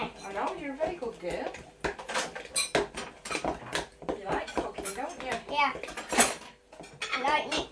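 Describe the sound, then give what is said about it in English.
A fork clinks and scrapes against a bowl as cake mixture is stirred by hand, with many quick, irregular metallic taps. An adult and a child talk over the stirring. “Yeah, you can stir it with a fork for a minute and then I'm going to do it with the electric one, okay?”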